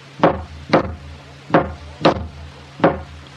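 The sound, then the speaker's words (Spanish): A girl hammers a nail with sharp, woody knocks in a steady, somewhat uneven rhythm. Each blow is a short, bright thwack that stands alone with no talk. “Mientras le dé al clavo, y tiene buen ritmo”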